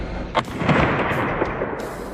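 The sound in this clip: Muffled gunshots from a handheld gun fired at a target, held in both hands and aimed with simple iron sights; a few dull, booming reports rise over a continuous broad rumble.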